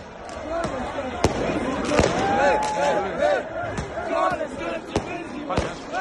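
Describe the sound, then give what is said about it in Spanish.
A Sarajevo street crowd chants and cheers as Bosnia reaches the World Cup, with many sharp firecracker bangs cracking out over the sustained roar of voices. “Mira, antes de nada, este es el sonido de Sarajevo, Bosnia, ahora en directo.”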